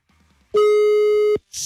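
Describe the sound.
A telephone line tone as a wake-up call is dialed: one loud, steady buzzing tone lasting under a second, then cut off, followed by a short burst of noise.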